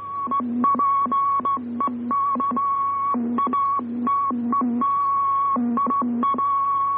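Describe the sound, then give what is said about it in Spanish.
Continuous wave radio telegraphy signal whose carrier stays on the air while keyed: an unbroken tone that jumps between a high and a lower pitch in a quick Morse-like rhythm, over a low steady hum. “la misma onda continua está siempre presente y no sale del aire aunque el operador apague el interruptor. Escuchemos este ejemplo y comparémoslo con el anterior.”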